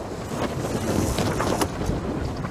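Wind rushing and buffeting against a sailboat as it tacks and the wind comes across the bow. A steady, broad roar holds at an even level from start to finish.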